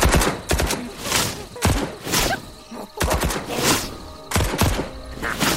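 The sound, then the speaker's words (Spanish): Gunfire from a gunman shooting wildly in all directions: several sharp, loud bursts of shots separated by short gaps, each burst cracking broadly and then decaying. “El tal Andrés disparaba por todos lados”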